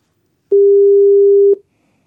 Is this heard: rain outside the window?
no